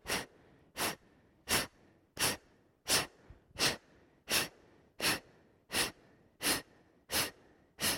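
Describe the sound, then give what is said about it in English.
Twelve sharp, forceful exhales during a breathing exercise, with the stomach sucked in on each one. The breaths come in an even, steady rhythm, each a short, loud breathy burst separated by near silence. “Exhale, exhale, stomach sucks in all the way.”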